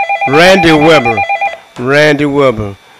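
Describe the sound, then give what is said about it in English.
A telephone rings with an incoming call, a pulsing electronic ring under a loud voice that sounds in two long bursts. “Take the phone call, brother. You got a phone call coming in.”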